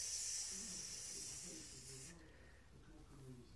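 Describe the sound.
A snake hissing, a loud, airy hiss that holds steady for about two seconds and then cuts off, with a voice talking quietly beneath it.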